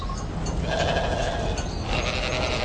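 A flock of sheep wanders into farm fields, bleating in wavering, overlapping calls over a steady, noisy background.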